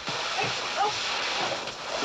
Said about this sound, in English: Mike fights against the gushing cannon of water, trying to reach the tap.